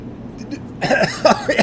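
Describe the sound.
Coughing and throat clearing after choking on breath: a short pause, then a few rough, raspy bursts in close succession, fairly loud.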